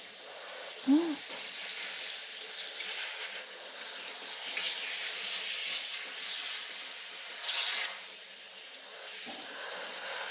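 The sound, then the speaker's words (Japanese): Running water from a sink rinses hair down to the hairline to wash off light oil before shampooing, a steady, even hiss with gentle swells that continues throughout. “もうちょっとかな。髪の生え際まで流して、軽く油を流しておかないといけませんからね。”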